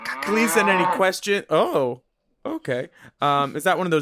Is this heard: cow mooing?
yes

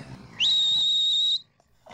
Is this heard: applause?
no

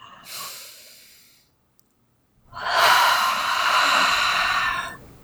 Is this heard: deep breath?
yes

